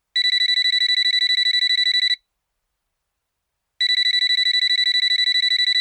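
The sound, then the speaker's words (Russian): A telephone rings with a bright, high electronic trill, a rapid warbling pulse in two long bursts of about two seconds each, split by a silent gap, with nothing else heard. “Размышления Далилы прервал телефонный звонок.”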